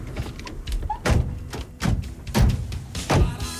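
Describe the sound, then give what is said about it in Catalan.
Several heavy thuds of a car door being forced shut with difficulty during a stop at a petrol station, the blows coming in an uneven series, loud and dull, with no talking. “Li ha costat tancar la porta.”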